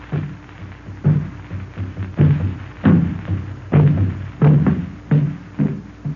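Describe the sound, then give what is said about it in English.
African drums booming: many deep, heavy thuds in an uneven repeating rhythm, loud and alone with no voices. “On and on they boom, just as they have for countless eons, causing the myriad human pulse to throb in unison. These drums are the most primitive telegraph known to man,”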